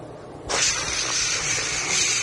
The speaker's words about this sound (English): It's raining. It's raining. Man, when's this rain going to stop?